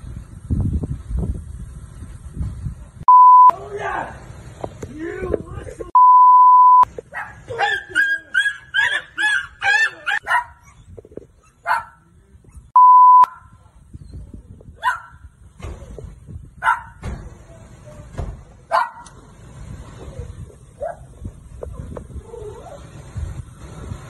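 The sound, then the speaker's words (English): A dog whimpers and yelps while a man punches it outdoors. Short barks and cries are mixed with human voices, and three steady beep tones sound during the struggle. “You can see here from the video that he walks outside. He then grabs hold of the dog and he punches that dog.”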